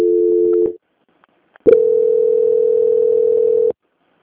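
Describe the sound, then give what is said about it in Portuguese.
A telephone line plays a call-transfer tone: a short steady electronic beep, a pause of near silence, then a longer unbroken tone at a constant pitch that stops abruptly. “agora eu vou transferir a ligação só para a auditoria finalizar com a senhora”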